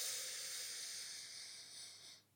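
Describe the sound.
One slow, steady inhale through the right nostril during alternate-nostril yoga breathing. It makes a soft, airy hiss that holds evenly for about two seconds and then fades out, with no talking.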